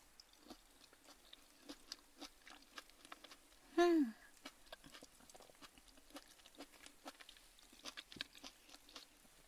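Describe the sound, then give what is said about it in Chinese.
Someone chews a sweet and sour orange, with many faint, soft, moist bites and smacks in an uneven rhythm and one brief, louder tonal sound near the middle. “你一半我一半，这个橘子可是我特意挑的呢，绝对又酸又甜，超好吃的，快尝尝吧。”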